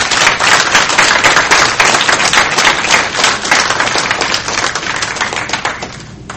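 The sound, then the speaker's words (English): An audience applauds its speakers at the close of an evening event, a loud, dense rush of many hands clapping that holds steady and then tapers off at the very end. “we just have another round of applause for all of our speakers”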